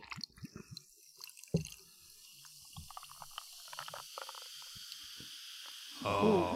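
Sipping of a red burgundy creaming soda, a Portello, right beside the microphone: quiet wet slurps and small liquid clicks come in short bursts, with a louder fizzy rush near the end.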